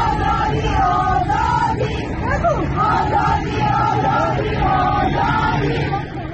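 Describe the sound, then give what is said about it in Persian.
A crowd of women marching through a street in Tehran on International Women's Day, chanting slogans together: loud, rhythmic massed voices rising and falling in repeated phrases without a break. “این صدای زنان در تهران هست.”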